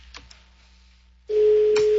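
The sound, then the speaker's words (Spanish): A telephone line rings as a call goes out: after a near-silent stretch with a couple of faint clicks, a loud, steady single-pitched ringing tone starts and holds to the end. “Ahí está sonando el teléfono.”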